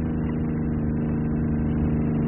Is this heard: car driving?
yes

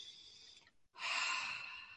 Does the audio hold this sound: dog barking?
no

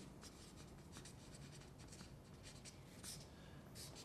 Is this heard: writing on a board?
yes

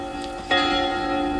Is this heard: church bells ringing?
yes

